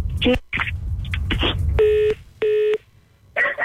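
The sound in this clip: A telephone line tone follows a caller hanging up, heard as two short, even beeps with a slight pause between them. People talk before and after the tones.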